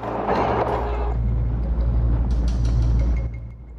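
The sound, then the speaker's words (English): A car drives over a wooden bridge that spans a river, giving a steady low engine rumble and drone with a few faint knocks near the end before the sound fades away. “Harry drives his car over a wooden bridge spanning the river near the baptism.”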